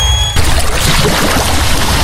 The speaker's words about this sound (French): Fermez les yeux, vous entendez la mer, le vent doux sur la peau et les mains de Frédéric